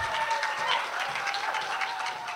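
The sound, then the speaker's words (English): An audience applauds the panelists at a public meeting on tenant support, with steady, dense clapping that holds throughout the short clip. “And can I get a big round of applause for all of our panelists up here?”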